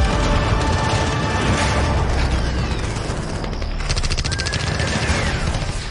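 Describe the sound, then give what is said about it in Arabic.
Battle with cannon and rifle fire around a cannon outside a fortress: dense, continuous loud gunfire rattles without pause, mixed with deep booms throughout. “عافية مهم ينخرس هذا المدفع.”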